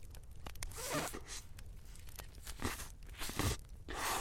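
Biting and chewing into a large, fist-sized pastry filled with whipped cream: faint, soft crunching and crinkly, tearing bursts come in several uneven clusters, with quiet pauses between them.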